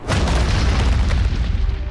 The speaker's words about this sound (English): The explosion thundered throughout downtown Las Vegas, emanating from the parking garage of the 10-story Bank of Nevada building.